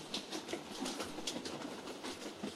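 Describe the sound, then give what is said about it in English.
A train rolls along the tracks with a fast, even clickety-clack of wheels over rail joints above a steady rumbling wash of noise. The level stays constant throughout, and no voices are heard. “black iron makes its way around the corner and hills. The train approaches, roaring up”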